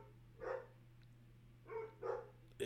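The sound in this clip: Dogs bark, probably at a deer: a few short, sharp barks spaced apart over a low steady hum, with no talking.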